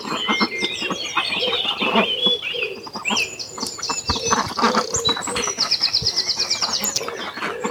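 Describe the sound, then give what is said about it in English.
Ducks call excitedly after being reunited, with many overlapping quacks and chirps forming a busy, continuous, fairly loud chorus and some higher rapid trills near the end. “was all of the ducks being ducks and just being extremely happy that they've all been reunited.”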